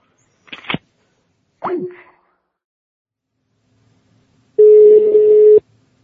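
A telephone call signal: two short clicks, then a pause, then a single steady mid-pitched ringing tone lasting about a second.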